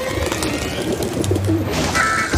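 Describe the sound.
Pigeons cooing in a city: a low, soft coo rises briefly over a steady wash of street noise.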